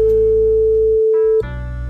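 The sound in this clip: A telephone ringing tone sounds as a call is placed during a radio request show: one loud, steady, single-pitch tone holds for well over a second, then abruptly gives way to a quieter, different line tone.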